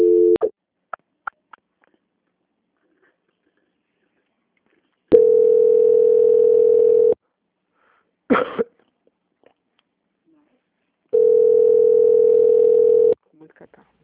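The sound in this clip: Telephone line tone while a call is transferred and put on hold: after a brief tone and a few clicks, two long steady beeps of about two seconds each sound apart, with a cough between them.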